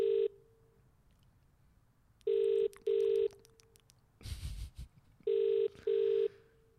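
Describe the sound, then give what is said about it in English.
Ringback tone of an outgoing phone call: steady mid-pitched beeps in repeating pairs, two full pairs after an opening beep, with a short rustling noise between them. “See if we get him on the line. Better not go to voicemail.”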